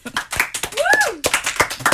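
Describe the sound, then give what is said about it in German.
An audience applauds with quick, uneven hand claps, and a whooping cheer rises and falls in the middle of the clapping. “Einmal Applaus für Andi.”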